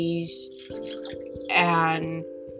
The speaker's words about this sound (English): Thank you, phone, for going on. Tell me I need to drink water.